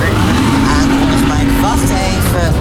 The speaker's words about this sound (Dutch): Als het goed is, beert nu de boot aan.